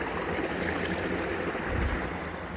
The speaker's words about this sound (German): Das Bächlein hat eine leichte Stufe, sodass das Wasser jetzt wie ein Mini-Wasserfall nach unten fließt und dort schäumend, weiß schäumend ankommt.